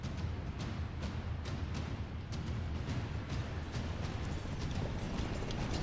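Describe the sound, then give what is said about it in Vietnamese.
Horses galloping into a mounted battle, hooves striking in a fast, even rhythm of faint thuds that repeat steadily over a rough, noisy background. “Trương Kỳ thúc ngựa mà xông tới đánh với Thường Kiệt.”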